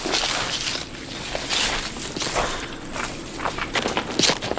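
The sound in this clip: People walk at a steady pace in a regular rhythm of footsteps, each step a short, slightly crunchy scuff. The steps continue throughout, with no voices.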